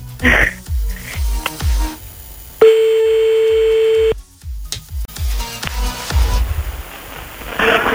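Telephone ringback tone while calling someone back: one steady mid-pitched tone lasting about a second and a half, with clicks and noisy line sounds before and after.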